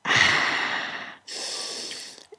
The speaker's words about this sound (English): now try it again one more time and take a real deep breath first.